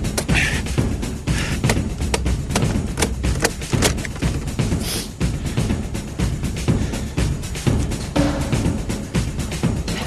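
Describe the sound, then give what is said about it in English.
Many heavy hammer blows pound a Ford Sierra's steering lock in rapid, uneven succession. The loud, dull thuds and metallic knocks run almost without a break. “steering lock's still on. Steering lock's still blocked. Big hammer. Bigger hammer.”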